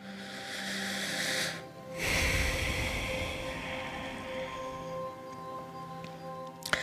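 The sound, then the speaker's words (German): Slow, breathy exhaling during a guided relaxation exercise, releasing tension after tensing the body: a soft, airy hiss that dips briefly, then swells again and fades out gradually, faint and alone with no talk. “Ausatmen und auch die ganze Anspannung loslassen.”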